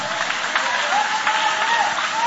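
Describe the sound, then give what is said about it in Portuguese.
A church audience claps together in steady, continuous applause, a dense even patter at a constant level, with a voice carrying over the clapping. “podem aplaudir a Deus com alegria”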